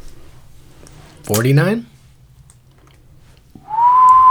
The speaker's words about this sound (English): Trying to hold out the whistle.